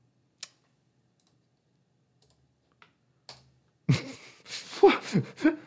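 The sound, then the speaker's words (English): Computer mouse clicking a link: a few isolated, sharp clicks spaced out over near silence, followed by a louder, busier stretch of noisy sound at the end. “I'm going to click this link.”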